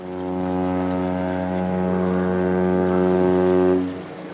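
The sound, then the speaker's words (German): A deep ship horn sounds as a red 120-metre tanker passes on the Elbe toward Hamburg harbour: a single loud, steady, low tone with rich harmonics holds for nearly four seconds, then cuts off. “Gerade fährt ein roter, recht schmuckloser Tanker mit dem Ziel Hamburger Hafen vorbei.”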